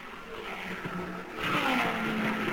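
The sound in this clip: Race car engines drone as the cars round the turn at an auto race. The steady roar swells louder about halfway through and holds there.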